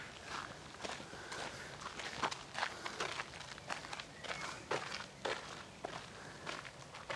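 Footsteps of people walking: many soft, steady steps in an even rhythm, fairly faint, continuing throughout.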